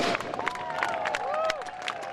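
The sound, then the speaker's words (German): Spectators along the shore of a lake applaud a swimming race with scattered, irregular claps. High whistling tones and faint crowd voices run through the moderate-level clapping. “Schon gleich gibt's aber auf der anderen Seeseite zu Merli Schacher wieder einen Klapp und viel Applaus.”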